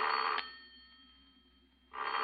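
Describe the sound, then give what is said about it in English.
A home telephone bell rings in two bursts, one cutting off shortly after the start and another starting near the end. A quiet gap with a faint hum lies between them. “Because the four numbers I just dialed make your own phone ring.”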